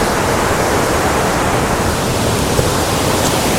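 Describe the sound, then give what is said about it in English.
A river flowing near a waterfall produces a broad, steady rushing roar that stays constant and loud throughout, with no voices or distinct events breaking through. “I've come out to a bend in the river. Oh. The waterfall is around this corner”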